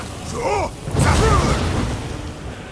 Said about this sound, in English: I'm shooting him with the ice spikes.